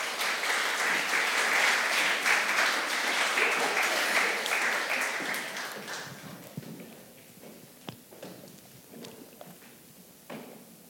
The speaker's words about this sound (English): So can you guys put your hands together as we welcome Bruce and Ann Elliott to the stage?